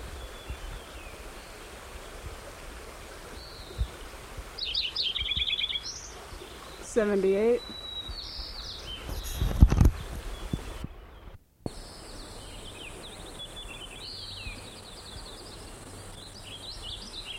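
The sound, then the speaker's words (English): A white-crowned sparrow sings short, high whistled phrases and trills that recur a few times over steady background noise. “White Crown Sparrow singing”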